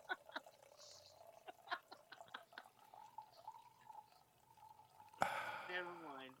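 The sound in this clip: Wine is poured from a bottle, a sustained gurgling splash near the end. Before it come soft voices and a few small clicks and drips.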